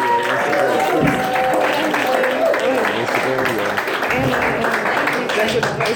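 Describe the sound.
Loud, sustained audience applause and cheering welcome a comedian to the stage, a dense wash of clapping with mixed voices that holds steady throughout.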